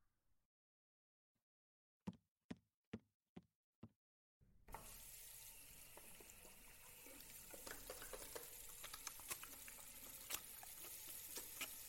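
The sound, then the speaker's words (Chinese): Hands are washed under a running tap before a meal: five soft, evenly spaced clicks come first, then water gushes steadily and broadly to the end, with small splashy spikes scattered through the flow. “嗯，那我先洗手吧。”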